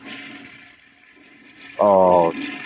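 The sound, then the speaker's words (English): A toilet flushes with a rushing, swirling wash of water, interrupted near the end by a brief loud humming tone. “Can you check on the computer where the toilet flushing? It doesn't show me what room it is when you flush the toilet, no. Which one has the wet floor? Because there's this water everywhere coming out of that bathroom. I'll try it again.”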